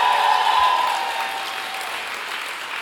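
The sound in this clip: Congregation applauding during a church service, a dense wash of clapping that is loud at the start and eases off steadily over about three seconds.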